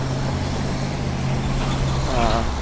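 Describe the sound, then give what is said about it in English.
Steady roar of car traffic crossing a bridge, a dense continuous wash of tyre and engine noise with a low hum underneath and no clear gaps. “definitely seems weird though that you still get all these car traffic, you know, all this car traffic”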